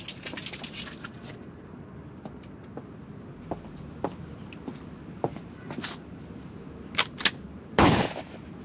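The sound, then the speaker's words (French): A firing squad's rifle volley lands as one loud, dense burst near the end, after a stretch of scattered light clicks and taps and a couple of sharper snaps just before the blast. “En joue. Armée. Feu. Reposez, armes.”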